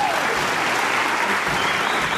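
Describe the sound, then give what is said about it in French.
Applause for a performer's well-coordinated display: dense, steady clapping from many hands that holds an even loudness throughout. “C'est là que Miss Liégeois se surpassa pour coordonner ses mouvements et fut applaudi.”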